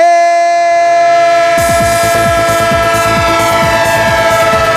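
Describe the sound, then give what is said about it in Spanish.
A train horn sounds a steady, multi-toned chord throughout as a train passes. Partway through, a fast rhythmic clatter of wheels joins in and continues under the horn to the end. “El tren del Radio Estadio. El tren de Onda Cero, el tren del fútbol. Esta vibración que tanto nos gusta y que tanto compartimos.”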